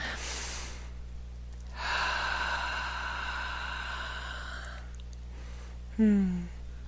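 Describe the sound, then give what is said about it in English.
A deep breath, a long, soft, breathy draw of air followed by a sustained exhale, with a short voiced sound near the end. “Nice deep breath. Another one.”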